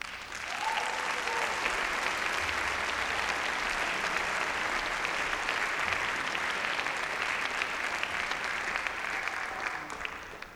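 Audience applause welcoming musicians onto a stage: dense, steady clapping from a crowd that holds at an even level throughout and fades slightly at the very end.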